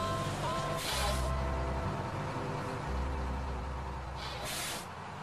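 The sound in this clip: School bus air brakes hissing: two short bursts of hiss rise over a steady low engine rumble, fairly quiet overall.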